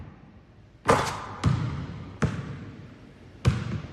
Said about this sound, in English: He sinks a three-pointer.